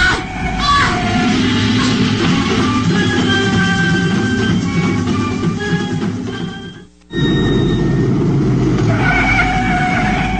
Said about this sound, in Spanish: Sí, me vi obligado a frenar bruscamente. Hice a fondo el freno y el lujoso Rolls Royce patinó peligrosamente por la carretera envuelta en la niebla.